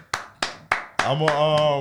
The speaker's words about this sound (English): A round of applause